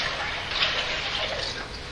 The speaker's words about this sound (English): I want to take a moment to pour water in the baptismal font.